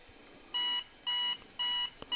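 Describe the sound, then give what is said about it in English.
Three electronic beeps from a small battery-charge indicator gadget after its button is pressed: evenly spaced, bright high-pitched tones of equal length, loud against a quiet background. “now if I hold that button in, and now it did a beep and a vibration. So if I just press it again,”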